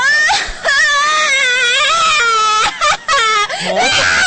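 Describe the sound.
A young girl cries loudly, her sustained, high-pitched sobbing wail wavering in pitch and breaking only for brief catches of breath.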